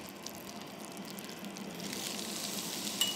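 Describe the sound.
Steady sizzling hiss as chopped rhubarb is added to a hot pan while being cooked soft for tartlets. The broad, even frying noise continues throughout and grows slightly brighter toward the end.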